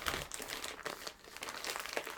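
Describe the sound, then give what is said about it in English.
Crinkling and rustling of a package being opened as a small piece of tape is pulled free. Many irregular crackles and crunches run throughout at a fairly quiet, steady level. “There's a little piece of tape I have to undo. And if I pull hard enough, I should be able to.”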